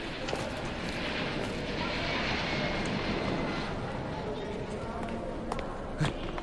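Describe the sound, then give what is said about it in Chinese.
A steady, loud roar from Boeing 737-800 jet aircraft on an airport apron, with voices faintly beneath the engine noise. “停机坪上两架波音737-800， 还铺了红毯，好像是专机呀”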